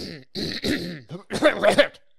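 Throat clearing from post-nasal drip: a few short, raspy, voiced bursts in quick succession, the last ones stronger and rougher, heard alone without talk.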